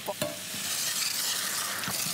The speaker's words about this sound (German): Die können natürlich ihr Aroma jetzt durch die Hitze noch mal so richtig abgeben. Ich gebe jetzt auch schon mal immer so ein bisschen Likör dazu.